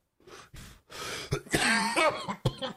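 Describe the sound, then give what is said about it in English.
Suppressed coughing from a man taking cannabis dabs: a string of many short, muffled coughs and throat bursts in irregular, jerky spurts. “You see him like suppressing coughs. He's like jerking around while he's doing it.”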